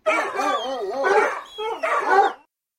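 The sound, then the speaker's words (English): A dog barks in a few short, high-pitched yips and barks, mixed with whiny, whimpering tones, then falls silent. “Dogs bark.”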